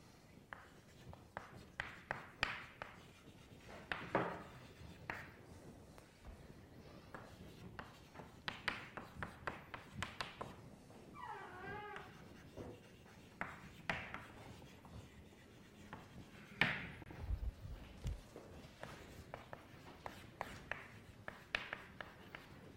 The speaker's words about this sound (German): Ich schreibe das nochmal hin.